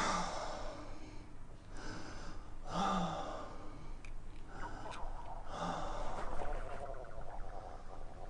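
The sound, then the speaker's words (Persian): A patient breathes in and out during a chest examination, with a few slow, faint breaths that rasp softly over a steady background hiss. “چه صدای قشقش میاد؟ عجیبه. میدونی دکتر چیه؟ تازه دیرم صدای نفسش هم میشنوم.”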